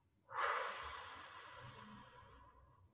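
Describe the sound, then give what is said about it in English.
A deep breath in and out, an airy, breathy rush that starts abruptly and fades slowly over several seconds, with no talk over it. “A big breath in and a big breath out.”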